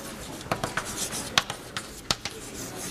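Writing an equation during a university lecture on electric voltage: many short, dry scratching and tapping strokes come in an irregular rhythm, a few sharper than the rest, over a soft steady background with no talk.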